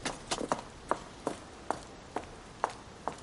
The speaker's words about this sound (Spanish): Continúa en otra dirección. Sube la empinada escalera de piedra.